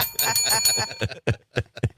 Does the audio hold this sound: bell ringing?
yes